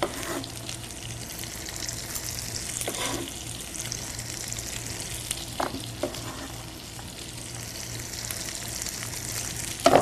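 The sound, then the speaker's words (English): Steady, even sizzling of fresh corn kernels, cut off the cob, frying in foaming butter in a pan, with a few brief stirring scrapes over the continuous crackle. “I'm going to cut it off the cob. And I'm going to add it to my foaming butter.”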